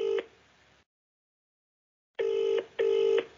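Ringback tone of an outgoing phone call: the tail of one ring, a long silent pause, then a double ring of two short, even tone bursts with no voices.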